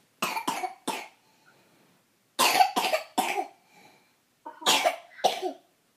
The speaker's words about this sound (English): Sometimes I'm coughing.